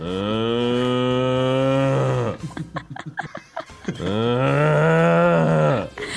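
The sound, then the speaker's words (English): A bull gives two long, low, drawn-out moos, separated by a short stretch of breathy, shuffling noise. “Ooh, the bull. El toro. El toro muge. El toro y la vaca.”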